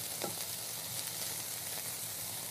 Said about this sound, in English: So I'm just going to throw it all in the pan together.